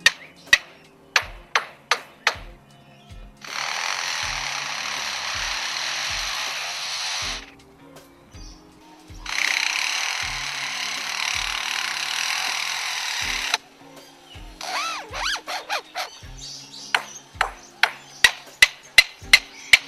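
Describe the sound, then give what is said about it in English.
A lyrebird mimics the noises of an active construction zone: many sharp hammer-like knocks in quick runs, broken by two long, harsh bursts like sawing or drilling, then more rapid knocking and whirring. “But one of the lyrebird's most famous performances seemingly recreates the noise of an active construction zone.”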